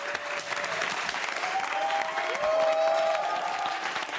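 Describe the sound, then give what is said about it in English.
Diners in a restaurant applaud steadily after a performer strikes a pose, a dense even patter of clapping that swells slightly toward the middle, with a faint tonal line running through it. “Nani strikes a pose. The diners applaud.”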